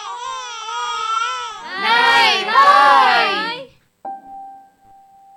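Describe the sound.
An infant cries in loud, wavering wails in two long stretches, the second rising in intensity. After a short pause a steady electronic tone sounds.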